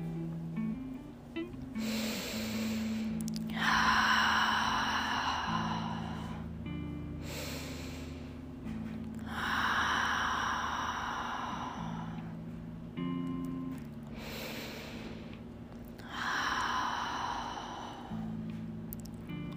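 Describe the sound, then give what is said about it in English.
Slow, deep breaths during a gentle yoga class: a few long, airy inhales and exhales swell and fade in a relaxed rhythm over soft, steady background music, with no talking. “Take a few breaths here, reciting your intention.”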